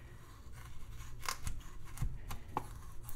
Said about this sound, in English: Why is cutting a carrot lengthwise so difficult?